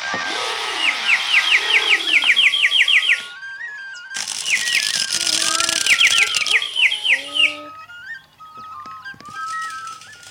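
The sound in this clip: A songbird mimicking a chainsaw plays as two long, buzzy, whirring bursts laced with rapid repeated chirps. A short gap separates the bursts, and scattered whistled tones follow, with no voices.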